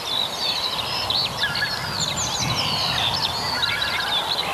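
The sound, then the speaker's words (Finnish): Tundra bean geese give many high, clinking calls in quick, overlapping bursts above a constant low background rush. “Ja tuossa kilkutusääni on sitten tundrahan. Se on tundrahan, joo.”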